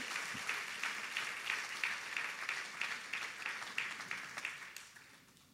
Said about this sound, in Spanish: Vamos a darle un aplauso al Señor. Put your hands together for the Lord.